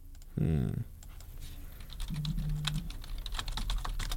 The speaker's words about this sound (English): How fast that type? Didn't help me though. Didn't give me the answer.